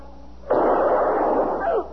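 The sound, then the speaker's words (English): A single loud gunshot cracks out suddenly, followed by a sustained, rough, noisy roar that holds for over a second before cutting off. “Mister, you shot him.”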